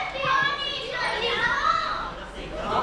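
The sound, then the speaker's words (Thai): Children chatter and play noisily, their high voices overlapping in a loud, continuous babble that swells and dips without pause. “เด็กคุยอะไรกันเสียงดังเจี๊ยวเจ้าเลย”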